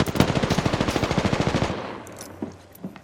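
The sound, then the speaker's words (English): Rapid automatic gunfire in a video game: a dense, loud burst of shots for under two seconds that cuts off, followed by a couple of isolated bangs against a quieter background. “Recharging shields. I'm fucking taking fire. Reloading. Reloading.”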